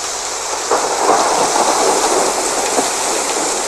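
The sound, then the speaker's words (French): A thunderstorm with dense, steady rain hisses loudly throughout, with a soft rolling rumble of thunder swelling beneath the downpour. “Je me concentre sur la pluie.”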